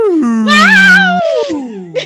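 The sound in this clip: Voices imitate a wail, drawn-out and moaning. A low tone slides down and holds steady while a higher, wavering wail overlaps it, then both glide downward and trail off, ending with a short voiced sound.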